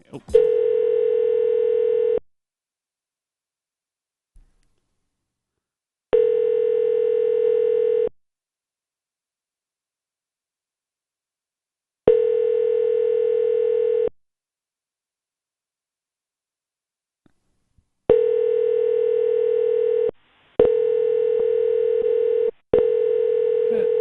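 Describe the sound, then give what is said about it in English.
A telephone ringing tone sounds as six steady, buzzing bursts of about two seconds each. The first three are separated by roughly four-second silences, and the last three follow in quick succession. “Sounding phone.”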